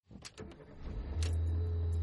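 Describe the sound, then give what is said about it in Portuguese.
An app-hailed car arriving: scattered clicks and rattles build into a steady, loud, low engine hum that holds to the end. “O carro de aplicativo acabou de chegar. Eita, é o seu carro.”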